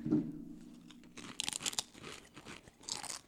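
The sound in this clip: Crunchy bites and chewing of a Thanksgiving-flavored snack with a gravy and stuffing taste, with a few crisp crunches followed by repeated moist chewing, at moderate loudness and without talk.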